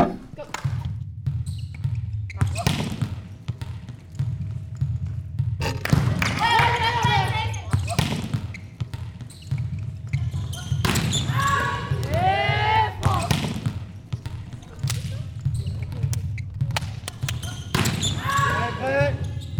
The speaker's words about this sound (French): je pense qu'on entend vraiment le ballon qui tape au sol ou alors qui tape sur les avant-bras en défense